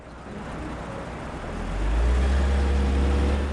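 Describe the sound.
A car slowly pulls away, its low engine rumble under steady road noise swelling in loudness about halfway through.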